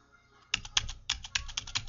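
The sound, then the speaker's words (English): Typing on a computer keyboard while entering a school name. A brief quiet start gives way to a quick run of many clicking keystrokes at an uneven rhythm. “I type my school name.”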